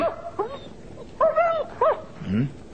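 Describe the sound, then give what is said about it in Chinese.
A dog yips and whimpers in a few short, high-pitched bursts with small rising and falling whines, over a faint low background. “只狗好似傻傻地咁嘅，自己说玩喎。”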